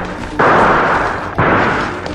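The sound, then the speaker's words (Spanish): Gunfire sound effect in a radio drama as bandits shoot into the air: two loud, sharp blasts, each followed by a sustained, noisy roar before the next. “Walker sacó sus armas y empezó a disparar. Los bandidos, contestando al fuego, empezaron a disparar al aire y le ordenaron al conductor de la diligencia que se detuviera de inmediato.”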